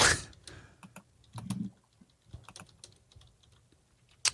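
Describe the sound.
Typing on a computer keyboard: many irregular, quick key clicks in uneven bursts, some louder taps standing out, with no talking.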